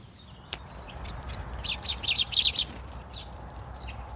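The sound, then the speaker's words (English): Garden birds call at a clear plastic seed feeder and a wire peanut feeder hung among sycamore and silver birch trees: a quick burst of several bright, high chirps rises out of faint background hush, after a single sharp click. “I thought I would have a go at recording myself, using some of their techniques, some of the birds that visit my feeders at home.”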